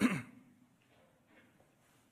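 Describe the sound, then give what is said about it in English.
A person clears their throat in one short, loud burst, followed by faint low murmuring. “you can clear your throat”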